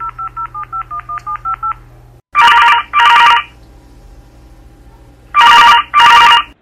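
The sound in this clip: Telephone touch-tone dialing, a quick run of about ten evenly spaced beeps, followed by the line ringing in two loud double-pulse rings with quiet gaps between them.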